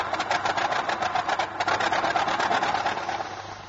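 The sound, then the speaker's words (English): An old Ford Model T car engine running as it drives up, giving a steady, rapid chugging throb over a low hum, fairly loud and even, with no talk. “she appeared with their father as he drove up in his old T-model Ford.”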